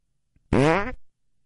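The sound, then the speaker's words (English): A fart sound effect plays from a phone app as one loud, buzzy blast about half a second long, its pitch rising as it goes, heard alone. “He's on Fart Hub, isn't he?”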